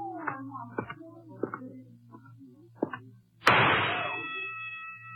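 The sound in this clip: A single sharp gunshot at a carnival shooting gallery bursts out after a man speaks, loud and sudden, with a ringing metallic tail that fades over about a second.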